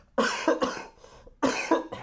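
Harsh, dry coughing in two separate fits, several loud coughs in each with a brief quiet gap between them.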